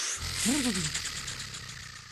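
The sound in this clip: A voice imitates a spinning prize wheel with a short, wavering hum that drifts downward in pitch over steady background hiss.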